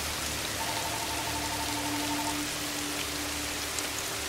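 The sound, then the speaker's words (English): Pouring rain falls in a steady, dense hiss that continues evenly for the whole clip, with no voices. “She stops in the middle of the path and looks up into the pouring rain.”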